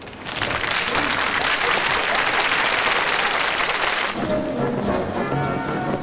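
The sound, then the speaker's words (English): Dancers stop dancing and applaud, a dense, steady burst of clapping that fills the whole clip, with its texture thinning slightly near the end. “The dancers stop and applaud.”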